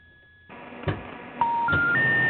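Telephone line tones on an outgoing call: faint line noise and a couple of sharp clicks, then three steady electronic tones that step upward in pitch, one after another.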